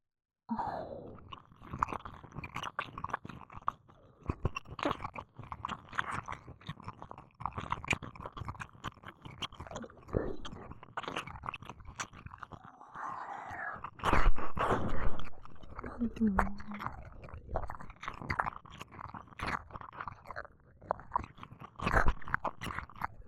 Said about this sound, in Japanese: お耳ピクピクさせてる君、もっと見たいからいっぱい舐めちゃおうっと。